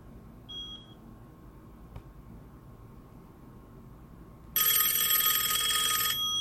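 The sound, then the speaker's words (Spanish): A telephone rings and no one answers. The loud, buzzy electronic ring starts abruptly and runs steadily to the end, after a brief faint beep early on over low background hiss. “Sí, está bien, voy a llamar a Alejandro.”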